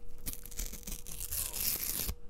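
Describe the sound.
Paper tearing out of a notebook: one continuous rough, crackling rip lasting about two seconds, fairly loud and heard alone, ending abruptly.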